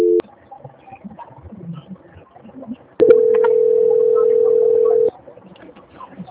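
A telephone tone sounds during a call transfer: one steady, mid-pitched, continuous tone of about two seconds, loud and alone over faint background noise, after a brief tone at the start.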